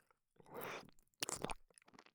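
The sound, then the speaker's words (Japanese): Wet licking of an ear comes as two close, soft bursts of moist smacking and crackling, with faint quiet gaps before, between and after. “お耳を舐めさせていただきますね。”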